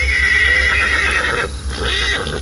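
A horse whinnies loudly on a moonlit road at night, a sustained, bright, quavering neigh that holds steady for over two seconds with a slight dip partway through, heard alone without talk.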